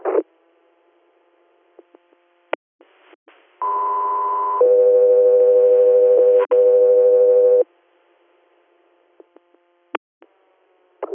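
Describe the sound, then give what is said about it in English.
Two-tone radio dispatch paging alert for an interfacility medical transport: a steady tone of about one second, then a lower, longer tone of about three seconds. A few faint clicks come before and after. “for your stand by for tones.”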